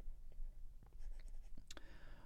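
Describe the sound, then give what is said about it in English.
Writing strokes, a faint dry scratching in short bursts with small pauses, quiet against a low hum. “let me write this in a different place.”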